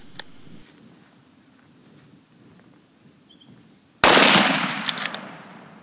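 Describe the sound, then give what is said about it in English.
A .375 rifle fires 270-grain copper bullets at a buffalo: after several seconds of near quiet, one sudden, very loud crack breaks out and decays into a rough, crackling tail. “He soaked up two rounds from the 375 running those 270 grain copper bullets, but it certainly makes a whack when it hits him.”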